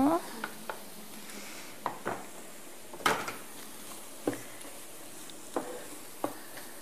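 Carrots sizzle softly in a pot, briefly pan-fried before cooking. Many faint scraping knocks from stirring break irregularly over the gentle frying.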